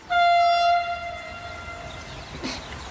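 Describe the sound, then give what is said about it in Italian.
A regional train in the distance sounds one long, steady horn blast that slowly fades. A low rumble follows, with a brief rustle near the end. “Guarda a sinistra e vede il treno regionale che sbuffa in lontananza.”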